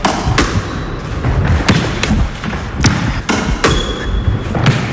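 A ball is struck back and forth in a racket sport rally: several sharp, hollow hits and bounces come at uneven intervals over steady background noise.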